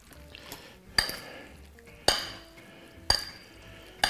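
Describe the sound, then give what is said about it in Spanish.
Spoon stirring and mixing a dish seasoned with salt, oil, lime and onion, with soft scraping broken by sharp clinks against the bowl at a regular pace of about one per second. “Así, bien revueltito.”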